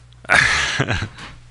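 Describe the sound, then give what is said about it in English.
A single loud sneeze bursts out sharply, then fades with a breathy tail. “that sneeze made me twitch”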